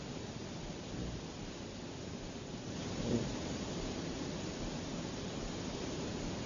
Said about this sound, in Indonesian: semoga hujan yang berkah, insya Allah ini berkah.